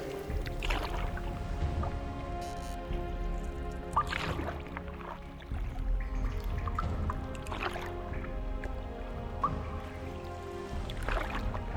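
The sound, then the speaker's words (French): A rowboat glides across water, giving soft splashes and drips at a few moments from oar strokes, set over a steady tonal musical background that runs throughout. “Et il y a une barque. Vite, prenons-la.”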